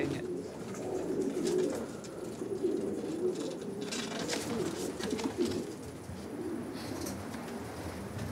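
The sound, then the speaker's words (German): Racing pigeons, checked for fitness before a training flight, coo continuously in low, throaty, overlapping calls with soft fluttering and shuffling mixed in. “Ich kontrolliere, welche Tauben wirklich fit genug sind, um morgen fliegen zu können.”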